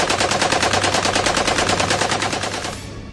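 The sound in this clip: A .50 caliber machine gun fires from a roof turret in one long, continuous stream of rapid, evenly spaced loud shots that tails off slightly at the end.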